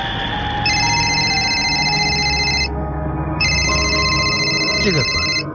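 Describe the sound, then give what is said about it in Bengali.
A telephone rings in two long, bright, high-pitched bursts separated by a short pause, steady and fairly loud, with no talking over it. “দারোয়ান phone দিয়েছে কেন হঠাৎ?”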